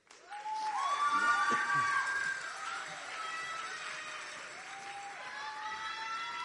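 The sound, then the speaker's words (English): Audience applause with some cheering greets the final group of contestants, numbers 51 through 60, at a pageant. The ovation is loud at first, drops after about two seconds and then continues at a steady, lower level. “And keep that applause going for the final group of contestants, 51 through 60.”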